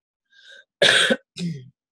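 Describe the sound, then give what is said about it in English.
A person coughing during a guided meditation: a soft breathy lead-in, then one loud, harsh burst and a shorter, throaty one after a brief pause, with no talk. “If I'm coughing, it's because it's a response to clearing.”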